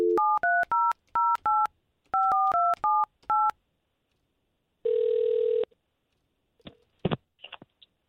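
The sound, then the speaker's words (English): A telephone number is dialed on a touch-tone keypad: many quick, evenly pitched beeps in two bursts, followed by one longer steady tone and a few faint clicks. “Let's see if we can't bridge the gap here and call Patrick and get you to talking again.”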